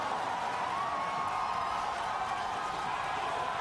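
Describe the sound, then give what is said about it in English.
A crowd cheers and whoops at a rocket launch with twin booster landings, a steady, continuous roar of voices that holds at an even level throughout. “It's a lot of cheering.”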